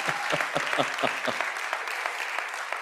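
A church audience applauds with a steady wash of many hands clapping, fairly faint, with a few sharper individual claps standing out near the start.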